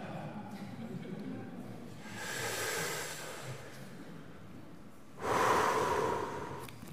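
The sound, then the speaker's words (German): Two deep breaths drawn in during a spiritual exercise with a Bible in hand. Each is a soft, airy rush, and the second is louder and longer than the first. “dann soll man diese geistliche Übung machen, tief einatmen, steht hier. Atme tief ein”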